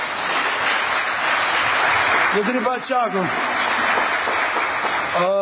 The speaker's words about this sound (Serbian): Aki je reakcija angjevi aplauzi kotaro deputetjet